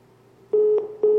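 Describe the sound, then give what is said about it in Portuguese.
A disconnected-line tone sounds as a listener's phone call drops: a steady mid-pitched electronic tone starts partway through, pulsing in a few short beeps over faint background hiss. “Opa, caiu a ligação”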